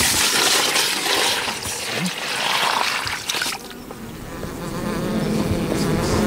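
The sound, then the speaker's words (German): Honeybees buzz inside a well-populated hive being fed for winter, a dense continuous hum with a voice speaking over it. “Das sind alle Wabengassen besetzt und es sind viele Bienen im Stock.”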